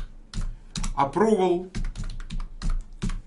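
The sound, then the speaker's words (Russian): Keys clatter on a computer keyboard as a web search is typed, a rapid, uneven run of crisp clicks, with a person talking briefly partway through. “Давайте я как раз для вас сейчас поиск сделаю. Как я сделаю? Я пишу Trump”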